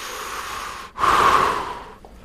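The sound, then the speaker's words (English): A person breathes in deeply. A soft, breathy rush is followed by a brief gap, then one strong, airy inhale that builds quickly and gradually fades away. “Breathe in. I've been doing that a lot lately.”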